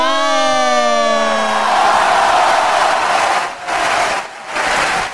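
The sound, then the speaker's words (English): An audience at an award show cheers and shouts in a loud, sustained roar that dips briefly twice near the end. “It's like they were doing a wave. Yeah, they were doing a wave. They were so excited for that one.”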